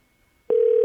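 Ringing tone on an outgoing telephone call: after near silence, a single steady, loud mid-pitched tone starts abruptly and holds unchanged to the end.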